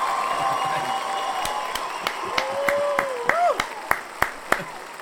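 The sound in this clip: Light audience applause for a guest, with a thin spread of clapping and a handful of sharp, scattered single claps standing out, while people talk over it.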